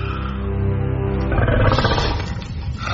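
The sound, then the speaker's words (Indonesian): A wolf growls in a cave, a low, sustained rumbling that swells briefly near the middle before easing again. “Terdengar geraman pelan dari seekor serigala.”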